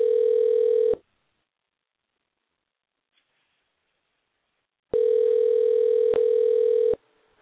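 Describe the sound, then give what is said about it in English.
Steady electronic ringback of an outgoing phone call: two identical purring tones separated by a long silence, the first cut short at the start and the second lasting about two seconds. “Probably ain't gonna answer because I told her I was gonna call her.”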